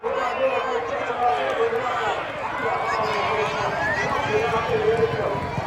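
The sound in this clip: Racecourse crowd noise and galloping hooves during a horse race at a summer racing festival. A continuous wash of crowd sound and voices runs throughout, with a rushing, drumming rhythm of running horses beneath at fairly steady loudness.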